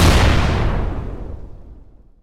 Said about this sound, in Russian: Граната взорвалась через секунду, и тварь отбросила ударной волной.